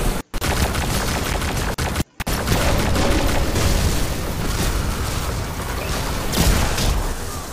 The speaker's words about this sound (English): I'm getting shot at in the face by a dumb Hydra.